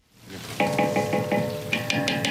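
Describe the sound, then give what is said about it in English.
Slivered almonds sautéing in margarine in a huge aluminum pot outdoors at a nonprofit kitchen: a steady sizzling hiss broken by a run of regular, bright scraping strokes, with denser strokes near the end. “She sautés slivered almonds in margarine in a huge aluminum pot outside”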